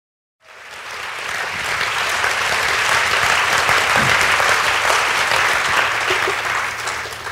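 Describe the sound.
An audience at the Hay Festival applauds to welcome a speaker. Dense clapping rises quickly from silence, holds steady and strong for several seconds, then eases slightly at the end.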